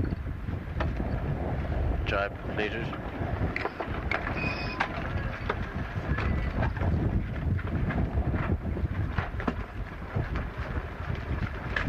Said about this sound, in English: Over the deck we've got about 40 knots of wind, which is gale force.